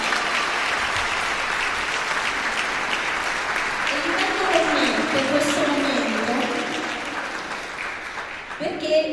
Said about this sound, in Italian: Secondo me un applauso in più ci vuole.